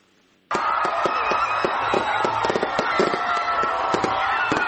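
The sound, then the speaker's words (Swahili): Fireworks explode at a New Year celebration in Kampala, Uganda, marking the arrival of 2016. After a brief silence, many loud crackles and pops go off in a dense, continuous barrage. “Ni milio ya fataki, ishara ya makaribisho yaliyonoga ya mwaka 2016 na kuupa mkono wa kwaheri mwaka 2015.”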